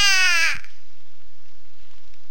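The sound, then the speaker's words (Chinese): A single harsh, crow-like bird call rings out loud and alone for about half a second, then fades into a faint, steady hiss. “这是只鸟啊”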